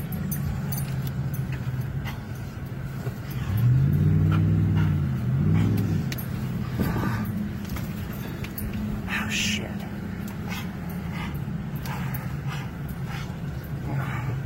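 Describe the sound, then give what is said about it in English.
A car engine roars as the driver hits the gas while fleeing the Gatlinburg wildfire through Chalet Village, a loud low surge rising and falling for a couple of seconds midway, with a dog whimpering and people talking. “Hit the gas! Hit the gas!”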